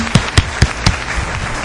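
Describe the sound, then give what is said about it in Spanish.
Audience applause at a live event, heard as a few sharp, evenly spaced bursts of clapping early on, followed by fainter, looser clapping to the end. “Y vamos a pedirles un fuerte aplauso a todos aquellos que nos están escuchando. Por favor, un aplauso para todos.”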